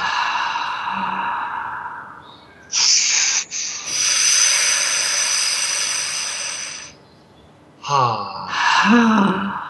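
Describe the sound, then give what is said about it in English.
Slow breathing in and out during a guided meditation, with long airy inhales and exhales carrying a soft hiss, several breath phases separated by brief pauses. “Inhale. Exhale.”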